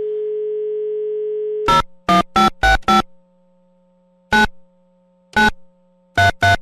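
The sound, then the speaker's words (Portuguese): A telephone tone sounds while a call is being placed, a steady electronic tone for under two seconds that breaks into a few short, sharp bursts with gaps between them, over a faint constant hum, with no talking. “Deixa eu ligar pra esse cara, só um minutinho.”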